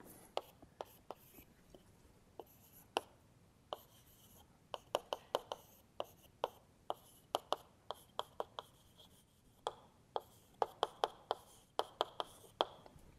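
Writing on a board: many sharp, short taps and ticks from the writing tool striking the surface, coming in irregular bursts and clusters, faint and fairly dry throughout.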